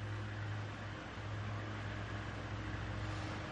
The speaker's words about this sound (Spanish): La furgoneta sale lentamente del garaje mientras la puerta continúa elevándose.